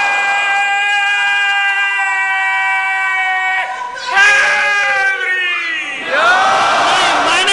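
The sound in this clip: Crowd chanting slogans at a religious gathering: one voice holds a long sustained call, then the crowd answers with two loud, roaring shouted responses.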